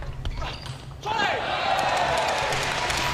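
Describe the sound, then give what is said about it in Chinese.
A table tennis serve by Truls Moregard in a professional match. A few sharp, light ball clicks ring out early, followed by a sustained wash of background noise, all under a commentator's voice. “莫雷加德发球，”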